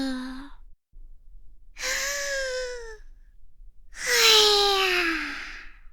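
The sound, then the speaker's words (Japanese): Deep breaths drawn in and let out slowly: three voiced, sighing exhales whose tone slides downward, the last one longest and loudest. “一緒にやってみよう。 大きく吸って、ゆっくり吐き出す。”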